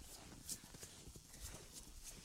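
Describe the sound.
Faint clip-clop of a horse named Cinnamon walking on a road with a young rider. The hoofbeats fall in a steady, even walking rhythm at low volume throughout.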